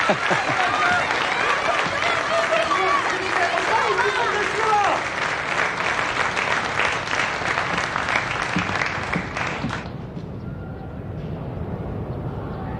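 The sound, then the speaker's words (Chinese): Audience applause welcomes a poet about to recite Pushkin, a dense, loud spell of many hands clapping that holds steady, then abruptly thins out near the end into a much quieter tail. “掌声欢迎。”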